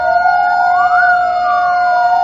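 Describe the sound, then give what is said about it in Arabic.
Air raid sirens wail across the city of Erbil during a commemoration of the chemical bombing of Halabja, with traffic halted. A loud, continuous siren tone swells slowly up in pitch and sinks back down, with no voices. “على وقع صفارات الإنذار وتوقف الحركة لمدة 5 دقائق، أحيت مدينة أربيل يوم الأربعاء الذكرى 23 لقصف مدينة حلبجة”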